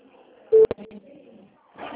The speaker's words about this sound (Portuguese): tô ligando.